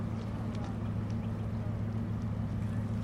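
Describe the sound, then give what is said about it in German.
The low, steady engine drone of an excursion ship slowly approaching on the river Weser, a constant rumbling hum with a few faint ticks above it and no clear change in loudness. “Das ist das Schiff, das jetzt so langsam in unsere Richtung kommt.”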